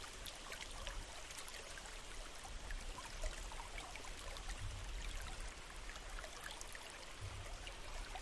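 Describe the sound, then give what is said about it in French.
Clear, cool flowing water, a steady, continuous babble and trickle with bright splashy texture that holds an even level throughout, with no other sounds. “Concentrez toute votre attention sur les sons de l'eau, purs, simples, envoûtants.”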